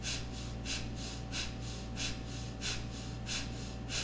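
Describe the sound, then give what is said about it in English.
Breath of fire: rapid, rhythmic nasal breathing with the stomach pumping in on each exhale. Many evenly paced, quiet breaths repeat steadily over a faint low hum. “So you can look up breath of fire online, but it's equal inhale, exhale through the nose, and you pump the stomach in on the exhale. So it's like,”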